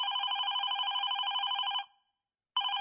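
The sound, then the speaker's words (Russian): A telephone rings at home with a long, loud, steady electronic trill that stops abruptly. After a short silence the next ring starts. “Деннис был уже дома, когда позвонил Харви Панотца.”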